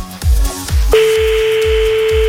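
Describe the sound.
A telephone call being placed: a few quick beats, then a steady telephone line tone that starts abruptly and holds, over a rhythmic low thumping beat.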